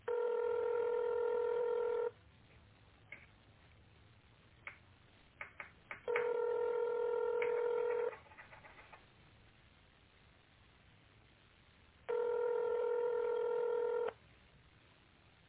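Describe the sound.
Telephone ringback tone while a call is transferred to reception: three steady, evenly pitched rings, each about two seconds long and separated by roughly four-second pauses, faint and with no voices.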